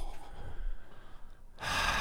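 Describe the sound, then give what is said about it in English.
A person draws a sharp, deep breath, a loud rushing inhale that bursts in near the end after a stretch of quieter, uneven breathy noise. “And you take the deep breath.”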